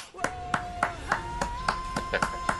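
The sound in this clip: One person claps hands nine times in a steady, even rhythm in applause, each clap sharp and bright, with a faint sustained tone behind.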